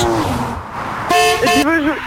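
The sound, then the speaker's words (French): A Porsche horn honks in two short, bright blasts, loud against steady background noise, with voices talking and exclaiming around and over them. “Klaxon avec la Porsche.”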